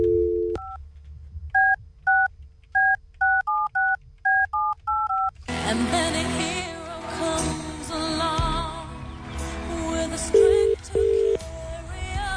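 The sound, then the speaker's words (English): Touch-tone telephone dialling to call someone back: a brief low tone, then a quick run of about ten clear dialling beeps, followed by a denser, louder stretch of sound with a couple of short tones near the end. “All right, so we're going to ring back someone that's texted through the text machine. Let's give it a go.”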